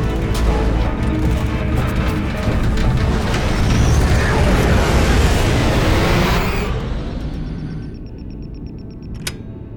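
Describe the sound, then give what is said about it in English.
Gunfire and explosions from an attack on a city merge into a dense, continuous roar of many rapid bursts that swells, holds, and then thins out over the last few seconds. “Out the window, look! Someone's shooting at the city! Hang on. I can't believe how many people are shooting at us.”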